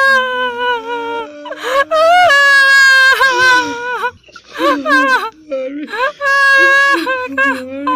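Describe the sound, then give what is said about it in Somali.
Wailing and crying from mourning mothers and girls of Burundian families whose sons were killed in an attack at Ceelbaraf: high, wavering voiced wails with pitch bends and brief sobbing breaks, loud and almost continuous. “qaar ka mid ah shacabka Burundi oo helay qabarka waxa ka dhacay deegaanka ceelbaraf iyo sawirada meedadka wiilashooda ayaa baroor iyo oohin afka furtay.”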